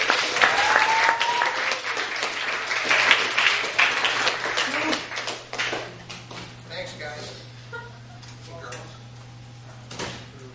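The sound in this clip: Audience applause welcoming a new ministry member at a Wednesday church service: dense clapping that gradually thins and fades, with talking voices heard over it.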